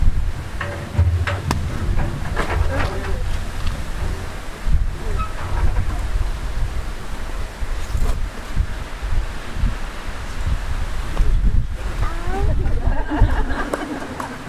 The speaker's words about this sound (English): It's blowing fast. It's getting light over there. I think that the wind is blowing.